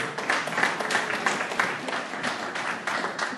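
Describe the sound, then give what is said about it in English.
Applause from an audience at a recovery group meeting: dense, steady clapping that stays fairly loud and continuous from start to finish. “Let's give Marion another hand.”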